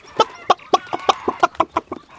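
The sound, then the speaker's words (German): Chickens cluck as they crowd together to get outside, a rapid run of many short, nasal clucks in quick succession, fairly loud and with no talk. “Jetzt drängen auch die anderen Hühner ins Freie. Da wird gerempelt und geschubst.”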